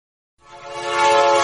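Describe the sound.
A train horn sound effect blasts after a moment of silence, a rich, sustained chord-like tone that swells steadily in loudness and holds to the end.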